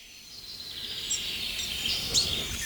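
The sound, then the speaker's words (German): Background blackbird song, faint and distant, with a few high chirps and short warbles over a steady hiss of ambient noise and no voices. “Und natürlich im Hintergrund die zweite Welle der Amsel.”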